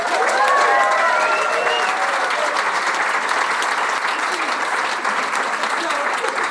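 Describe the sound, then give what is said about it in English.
A live studio audience applauds after a jazz band's performance, with dense, steady clapping that holds at an even level from start to finish. “I'd like to thank Judy and the band. Please put your hands together.”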